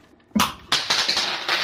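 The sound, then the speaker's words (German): A twenty-sided die rolled during a tabletop role-playing game: a couple of sharp clattering hits, then quicker rattling taps as it tumbles across the surface and settles. “Wirf mal W20 bei einer 19 oder 20.”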